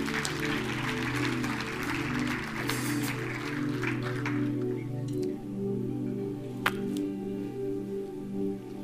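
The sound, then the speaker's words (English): Audience applause in a church gathering, a dense wash of clapping that fades out after about four seconds while steady sustained musical tones continue underneath. “Can you give him a big hand?”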